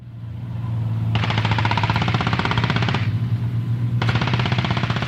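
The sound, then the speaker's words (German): Rapid automatic gunfire at a military firing range on Gotland, Sweden, south of Visby: two long, loud bursts of fast, evenly spaced shots over a steady low hum. “Auf Gotland wird nun, wie hier auf dem Waffenplatz Tofta südlich von Visby, wieder geschossen.”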